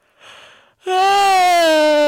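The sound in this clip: A person's voiced yawn: a breathy intake, then a long, loud moaning tone that holds steady and eases slightly lower in pitch until the end.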